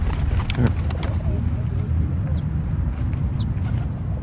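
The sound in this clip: Sparrows and pigeons in a park, the Jardin du Luxembourg in Paris, with a few faint, brief high chirps over a steady low rumble of outdoor background noise.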